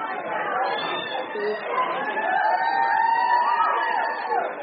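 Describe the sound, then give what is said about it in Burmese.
A crowd cheers and calls out in welcome at a polling place during an election, with a steady swell of overlapping voices and chatter that grows slightly louder toward the middle. “လူအုပ်ကြီးကအခုလိုကြိုဆိုခဲ့ကြပါလေ”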